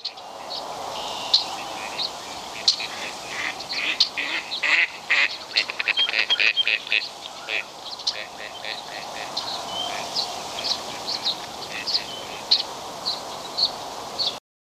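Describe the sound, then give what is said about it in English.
Gadwall duck calls: many short, nasal quacks repeated in irregular bursts over a steady background hiss, with a clear pause near the middle before the calling resumes. “Gadwall.”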